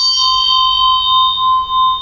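A bell rings with a steady, sustained tone and bright, clear overtones. It holds evenly through the whole clip with no other sounds.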